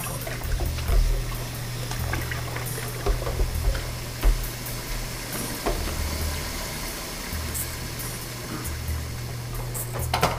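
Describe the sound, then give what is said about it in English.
Running water flows from a tap during hand washing, a steady hiss with occasional small splashes and knocks over a low hum. “So, some hand washing.”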